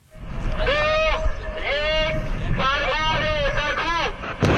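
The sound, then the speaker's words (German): A countdown called out in Persian for an Iranian rocket launch: a single voice speaks several spaced phrases, followed by a sudden loud burst at the very end. “Wenn im Iran eine Rakete startet, klingt das ungewohnt für westliche Ohren. Ein Countdown auf Persisch.”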